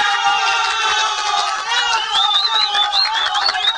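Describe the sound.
A crowd cheers and roars for a Mother's Day greeting, a loud continuous wash of voices with shrill, wavering whistles rising over it in the second half.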